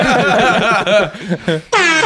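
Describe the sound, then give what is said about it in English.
An air horn sound effect blares as a loud, sustained brassy blast near the end, after a short stretch of wavering tones. “you gotta give yourself the air horn on that”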